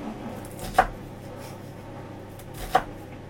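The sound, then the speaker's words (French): A knife chops through an onion in two distinct, crisp strikes on a cutting board, evenly spaced about two seconds apart, with quiet background between them and no talking. “J'ai coupé un oignon.”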